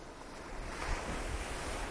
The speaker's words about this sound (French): Nous retrouvons enfin la mer.